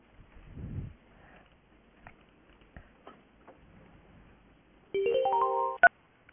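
An electronic telephone tone sounds as someone dials into an online meeting. A brief stepped sequence of beeping tones plays near the end and is followed by one short blip. Before it there are faint rustles and soft ticks.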